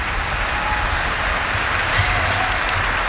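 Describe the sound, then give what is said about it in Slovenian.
Concert audience applause after a piano performance, a dense, even, rain-like patter of clapping that continues steadily for several seconds, with a few crisper claps near the end. “Najbrž si bo občinstvo priploskalo kakšen dodatek.”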